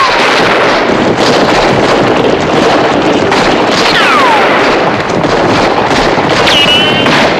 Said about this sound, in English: Hordes of Mexican bandits charge in, guns blazing. The posse fire back, but some don't make cover and are shot.